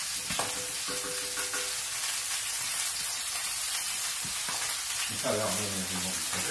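Fish frying and sizzling in a pan: a steady, dense crackling hiss runs through the whole stretch, moderately loud and continuous, with a few faint tonal clinks mixed in.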